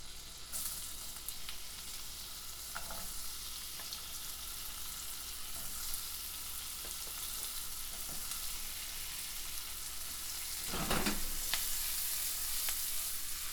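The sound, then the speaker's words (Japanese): Onions fry in butter in a pan with a steady, dense hiss and crackle. A few soft stirring knocks break in, and the sizzle grows slightly louder near the end. No voices are heard. “しんなりとするくらいまで炒めましょう。バターと玉ねぎのいい匂いです。”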